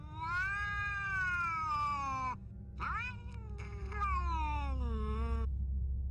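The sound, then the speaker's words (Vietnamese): A black cat sitting on a house roof yowls like a crying child, giving a few long, wavering, harmonic howls with short gaps between them over a low background rumble. “con mèo ngồi chồm hổm trên nóc nhà, nó ngước cái đầu lên trời rồi kêu lên những tiếng như là tiếng khóc của trẻ con.”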